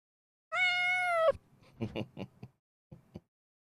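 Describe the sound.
A pet cat gives one long, clear, drawn-out meow, steady in pitch. A few faint, short sounds follow after it.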